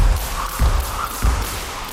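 Thumps of rope-skipping jumps from teenage competition jumpers at a club training session, with three steady, evenly spaced landings over a bright, noisy hiss.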